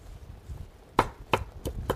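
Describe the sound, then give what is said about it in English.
A knife rough-chops fresh basil from a home-grown plant, with four sharp, crisp chops in quick succession after a quiet opening. “So this this basil plant's been growing for a while, and it really is great. I'm just going to chop a little bit, rough chop here.”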